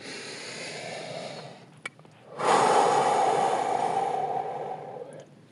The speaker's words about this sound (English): This is your weekly reminder to take a deep breath.